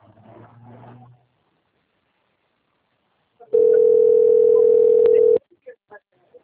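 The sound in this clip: A telephone rings with an incoming call from a bank. The single steady tone lasts about two seconds, comes after a moment of talk and is followed by a few faint clicks.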